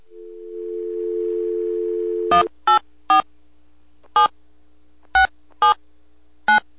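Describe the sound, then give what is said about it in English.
A steady telephone dial tone, then seven separate touch-tone dialing beeps at uneven intervals as a call is placed to a video game company. “We're going to give him a call right now”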